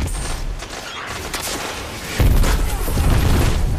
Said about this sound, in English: How does he have two rockets? That's stupid.